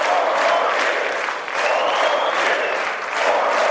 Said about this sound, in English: You could hear those chants of 4 more years even here where I am, outside the House chamber, as Donald Trump